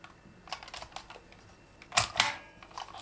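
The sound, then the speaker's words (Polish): Typing on a computer keyboard, including a press of the space key: a few light, quick key clicks, a pause, then two louder, sharper presses close together. No voices. “z lewej strony litery A, znajduje się to okienko do robienia odstępów. Więc teraz robię odstęp. I piszę dalej.”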